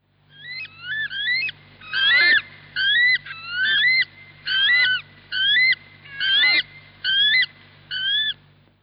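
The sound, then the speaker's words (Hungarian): Calls of the weka, a rare, endangered New Zealand bird: a steady series of shrill, rising whistled notes repeated in regular pairs, loud and clear above a faint low hum. “Vekának, vagy vekaguvatnak nevezik, és egy kihalófélben lévő rendkívül ritka madár, a hangja is eléggé különleges. Tessék csak meghallgatni!”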